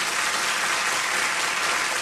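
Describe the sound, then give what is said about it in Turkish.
Dense, even applause from a concert audience thanking the women chorus singers of the Ankara Radio vocal and instrumental ensemble, a continuous wash of clapping with no talk. “Şef Mustafa Acar yönetimindeki Ankara Radyosu ses ve saz sanatçılarından oluşan topluluğumuzun kadın koristlerine bir kez daha teşekkür ediyoruz alkışlarınızla.”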